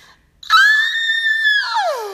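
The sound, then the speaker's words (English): A voice imitates a high-pitched scream: a sudden loud shriek that holds steady and piercing for over a second, then slides down in pitch as it trails off. “I hear this, like, high-pitched scream. Like,”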